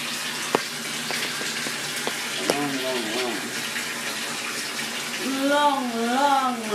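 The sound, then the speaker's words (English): Running water fills a bath from the tap with a continuous, even rushing hiss throughout. A voice is briefly heard over the flow in a few places. “when the bath is running, I have to be a little louder, but you can still fucking hear it for sure, mate”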